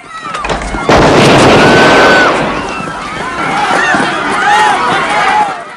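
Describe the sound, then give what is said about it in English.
Gunshot fired inside a roller rink: a sudden loud blast that leaves a dense, noisy roar, followed by sustained commotion with high chirping and shrill sounds over several seconds. “Kersey spots one of Fake White's men hiding behind a video game and shoots him.”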